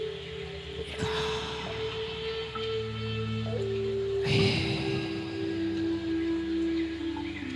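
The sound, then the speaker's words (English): Slow breaths in and out through the mouth during a guided breathing exercise. Two long, airy breath sounds, one near the start and a fuller one midway, sit over a steady, soft tonal background, with no talk. “Breathe in from your mouth and breathe out from your mouth.”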